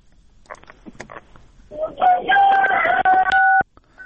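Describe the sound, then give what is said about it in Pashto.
A rooster crows once in a long, loud, harmonic call that rises and holds before cutting off, preceded by a few short, faint sounds. “ما خو وی چې دا اول د چرګ شغ راغی، ما خو وی چې هغه ټلیفون راته کړی دی”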